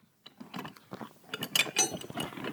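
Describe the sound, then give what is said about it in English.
An adjustable crescent wrench is handled, giving a busy run of small metallic clicks, ratchety ticks and rattles that grow slightly louder toward the end, with no talk. “I've got a wrench. I've got a, we call it a crescent wrench, but we call it adjustable wrench.”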